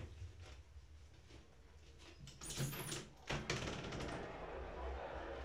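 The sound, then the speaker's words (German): A window opens with a short scraping clunk of the frame and fittings, a brief burst that stands out against a low, steady background. “Ich würde ja gerne mal ein bisschen das Fenster aufmachen.”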